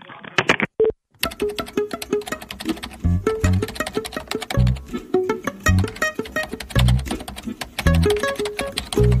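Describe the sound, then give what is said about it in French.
Someone types an email on a computer keyboard: a rapid, irregular stream of many sharp clicks and taps, with short pauses between bursts of keystrokes. “j'écris aussitôt le mail à monsieur Copé”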